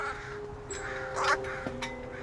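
Young crows give a few short, harsh caws, faint against a low steady background.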